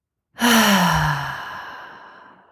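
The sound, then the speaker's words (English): A single long breath released through the mouth during a breathing exercise, a loud, sighing rush with a faint voiced tone that sinks in pitch and fades slowly away. “So letting all the breath go, and then breathing in through the nose and out through the mouth.”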